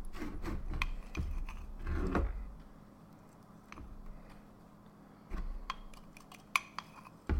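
Cannabis flower is packed into a pipe bowl, giving faint rubbing, scraping and small clicking sounds in irregular bursts. A couple of sharper taps land near the end.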